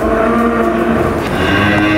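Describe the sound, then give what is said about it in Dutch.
Cows mooing inside a cowshed on a farm open day, one long, low, droning moo with steady harmonics that fills the whole clip with no talk over it. “We staan hier inderdaad midden tussen de koeien.”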